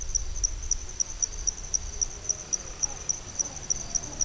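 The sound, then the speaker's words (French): High, rapid cricket chirping fills a tropical night recorded in the wet season. The pulses repeat many times in a steady, even rhythm above a soft low rumble. “Et maintenant, un son qui a été enregistré la nuit durant la saison humide.”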